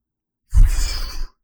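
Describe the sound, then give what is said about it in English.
A maximal deep breath in and full exhale, as in a vital-capacity demonstration: one short, airy rush of breath that lasts under a second, alone against silence. “vital capacity is essentially I breathe in as much as I can, and then I exhale all of it.”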